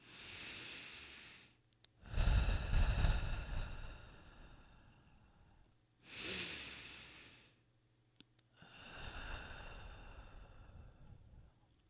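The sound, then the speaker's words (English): Slow, deep breaths of the kind taken to begin a meditation: a few long, soft, airy inhales and exhales, quiet and unhurried, with pauses between them and no talking. “Start with a few deep breaths.”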